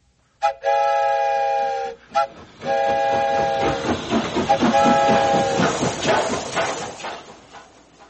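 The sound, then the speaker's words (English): A whistle is blown with a bright, train-like tone. A long blast is followed by a very short toot, then a longer wavering blast that turns breathy and hissing before trailing off. “And I'll leave the whistle in your hands, too. Thanks, Grandpa. Let me try that again.”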